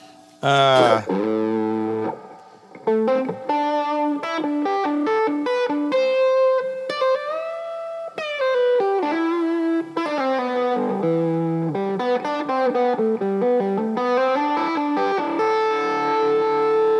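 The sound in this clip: Electric guitar through a drive pedal that adds light saturation and sustain: a continuous run of ringing, held notes and chords, with a harmonically rich, gently driven tone and steady loudness.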